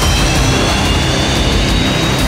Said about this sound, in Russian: Именно здесь проходит одна из крупнейших авиавыставок мира. Экспортный вариант Су-30СМ – один из главных героев.